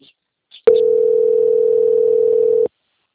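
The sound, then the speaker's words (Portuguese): A steady telephone line tone plays while a bank customer's call is transferred to quality control. It is a single continuous mid-pitched tone of about two seconds, alone after a few faint clicks. “eu peço que aguarde em linha, que eu vou transferir o contato para o controle de qualidade, que dará continuidade à contratação. Só um momento, tá bom?”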